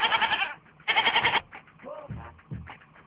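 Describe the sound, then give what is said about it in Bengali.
Goats kept at a home bleating: two loud, quavering bleats in quick succession, followed by softer, lower calls. “না, আমাদের এখানে কয়েকটা ছাগল আছে।”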